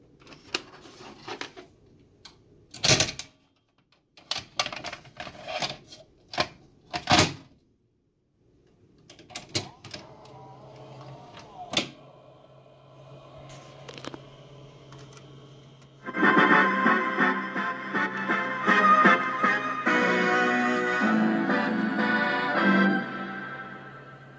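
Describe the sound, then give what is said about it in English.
A 1979 RCA VCR clicks and clunks through scattered mechanical knocks and whirs as a tape loads. A tape then begins playing, and a loud, sustained video intro fills the last stretch. “That was a 1979 RCA VCR.”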